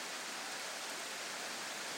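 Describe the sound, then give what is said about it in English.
Warm rain falls as a steady, dense hiss with no distinct drops, even and fairly faint throughout. “Why is this rain warm? It's not cold, it's warm.”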